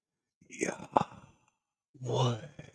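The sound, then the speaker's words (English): A voice imitates a long exhaled breath in two breathy, whispered bursts separated by a short pause. The second exhalation is smoother and more sustained than the first. “when we die, we take a last breath and we make a sound that says Yahweh, like basically because we let out our air”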